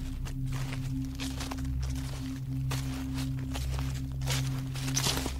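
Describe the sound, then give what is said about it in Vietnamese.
Footsteps tread on dry fallen banana leaves in a banana garden, giving a slow series of soft, crackling rustles over a steady low hum. “Bước chân của nó dẫm lên những tàu lá chuối khô rụng xuống sột soạt.”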